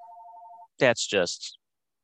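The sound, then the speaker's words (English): A telephone rings in the background with a single steady electronic trilling tone, which stops before a voice begins speaking. “there's the phone going off in the background”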